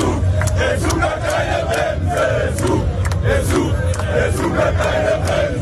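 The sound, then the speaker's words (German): German football fans celebrate in Times Square, New York, ahead of a match against Ecuador. A loud, continuous crowd roar carries many sharp shouted cries and chanting voices throughout. “Die deutschen Fans sind auch schon ganz entspannt. Sie haben auf dem Times Square in New York ordentlich gefeiert und wir hören da mal rein.”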